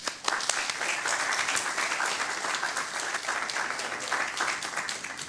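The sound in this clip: Audience applause welcoming Governor Bill Richardson onto the stage: dense, steady clapping from many hands that holds at an even level for about five seconds, with no voices over it.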